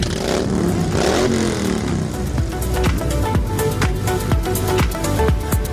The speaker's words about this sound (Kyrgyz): Кыш бою айдалбай турган темир тулпарларын жүрүшкө даярдап, жүздөгөн байкерлер зуулдат айданга ашыгышат.